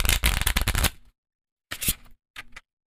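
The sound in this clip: Playing cards being dropped make a long clattering flurry, then two shorter rustling bursts after a brief pause.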